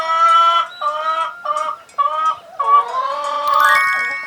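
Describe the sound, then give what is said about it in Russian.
A chicken clucking in a series of loud, drawn-out, tonal calls separated by short breaks, ending in a longer, higher, squawking cry, with no talk. “Курица.”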